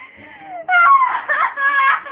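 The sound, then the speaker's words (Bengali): A woman crying and sobbing: loud, high, wavering wails that break into choked bursts, with no other sound around them. “কাঁদিস না রে বোন, কাঁদিস না, কাঁদে কি হবে বাবা”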